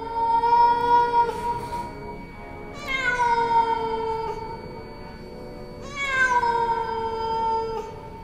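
A cat meows mournfully at night, giving three long, drawn-out cries with rich harmonics and a slight downward slide. Each cry stands alone, separated by brief pauses.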